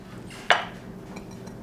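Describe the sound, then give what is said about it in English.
Rice being scooped into a shallow bowl: one sharp clink of utensil against the bowl that decays quickly, followed by a couple of faint ticks over a quiet, low background. “I have a bowl right here, or a little shallow bowl. I'm going to scoop my rice into it.”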